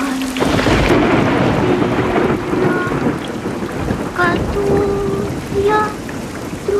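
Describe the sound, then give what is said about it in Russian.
Heavy rain pours steadily onto a city street at night as a dense, hissing wash, with deep thunder rumbling loudly at the start and swelling again later. “Ночь, улица города, дождь.”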